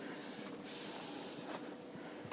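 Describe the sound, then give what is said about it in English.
Someone wipes down a wooden cutting board with a cloth, making quiet, soft rubbing strokes, a few sweeping swipes without talk. “Off goes the cutting board. Wipe it down.”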